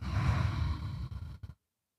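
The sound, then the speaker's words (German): A slow, deep breath drawn in and let out through the nose during a guided relaxation: a soft, airy rush of breath noise lasting about a second and a half, alone, then silence. “Nimm einen tiefen Atemzug durch die Nase ein und aus.”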